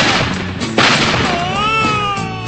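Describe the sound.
A gunshot sound effect is fired to wake a sleeping man on a country-music radio program: one sharp, loud blast followed by a noisy, ringing tail.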